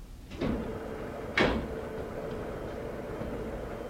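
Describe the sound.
A laboratory door opening: two short swept scraping sounds, the second louder, over a steady low hum.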